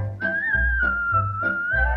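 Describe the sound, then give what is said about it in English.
A cheerful tune is whistled in a clear, steady, high melody that glides gently between notes over a bouncy, low, rhythmic musical accompaniment. “try to be just like the cheerful chickadee and whistle while you work”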